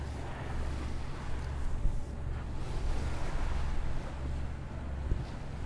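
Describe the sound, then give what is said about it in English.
A boat runs under motor at sea, not under sail: a steady low engine drone mixed with rushing wind and water, even in level throughout, with no voices. “So we're on motor at the moment, not under sail.”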